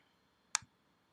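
A single mouse click on a download button: one brief, sharp, faint click followed by a softer low thump, alone in near silence.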